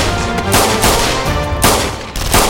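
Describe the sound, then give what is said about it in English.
Loud automatic gunfire in a hallway as bullets strike the wall at its end: a dense, continuous barrage of shots with only brief breaks between bursts. “Bullets cut the air around them and punched holes in the wall at the end of the hallway.”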